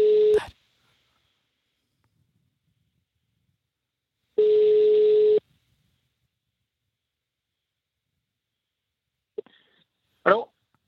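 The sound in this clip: Two steady telephone ringback tones as a call rings out, each about a second long and spaced several seconds apart, followed by a couple of brief clicks.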